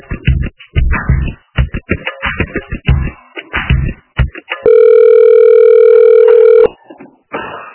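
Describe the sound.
A phone line rings while a call is transferred to an office extension. After a stretch of talk comes a single steady electronic ringing tone lasting about two seconds, followed by a brief voice.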